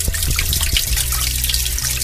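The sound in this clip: Spring water flows out of a stone grotto into a castle pond with a continuous, fairly loud splashing trickle and steady bubbling texture, without voices.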